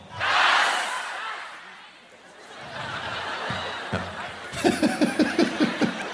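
Audience at a live event shouting a single word loudly in unison, one strong burst at the start, followed by quieter crowd noise and a run of rhythmic laughter near the end.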